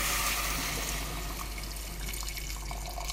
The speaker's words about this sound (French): Ces cubes de céleri et de pommes de terre, on va les ajouter à l'échalote et on va faire revenir tout cela brièvement dans le beurre avant de mouiller à hauteur avec du bouillon.